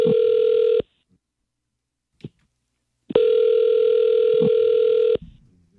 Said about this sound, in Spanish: ¿Le puedo llamar, ya? Ya está sonando.